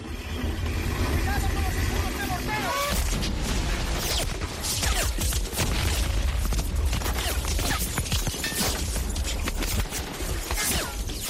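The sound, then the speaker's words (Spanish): The D-Day landing battle from the film Saving Private Ryan: dense, relentless gunfire and blasts form a loud, chaotic wall of noise with voices heard through it. “Fueron recibidos como sabían que iban a serlo, con fuego. Así sonaba el día D en la película Salvar al soldado Ryan.”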